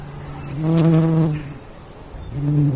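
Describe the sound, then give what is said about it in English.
Dutch bumblebees buzz in a back garden, a low droning hum that swells loudly, fades away, then returns as another pass begins at the end. “These are bumblebees. Not just any bumblebees, but Dutch bumblebees. This was recorded by Eric Post this month in his back garden.”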